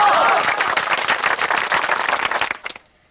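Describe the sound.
Applause from an audience at a village meeting, a dense, steady crackle of many hands clapping that holds evenly, then stops abruptly near the end.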